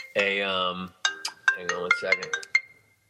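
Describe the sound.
Phone ringtone playing a bright electronic melody, one long sustained note followed by several shorter, sharply struck notes, then fading out.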